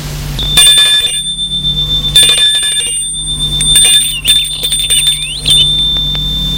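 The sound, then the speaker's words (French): A bell at a gate rings in repeated bright metallic bursts, several jangling strikes spaced well apart over a sustained high ringing tone, with no voices. “Au même moment, l'on sonne au portail.”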